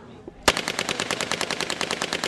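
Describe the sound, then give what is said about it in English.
An Israeli Uzi submachine gun firing at a firing range during a weapons demonstration: after a short quiet lead-in, a loud, sustained burst of rapid, evenly spaced shots rattles on without a break until the end. “students head out to the firing range for a demonstration of the weapons in the terrorists' arsenal, like the Israeli Uzi.”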